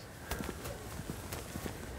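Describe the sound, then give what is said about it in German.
Faint, irregular clopping of hooves as a small dairy cattle herd walks out of the barn after milking, the scattered steps overlapping in a loose rhythm. “Nach dem Melken muss die Herde an die frische Luft. Raus aus dem Stall, einmal quer durchs Dorf und dann ab auf die Weide.”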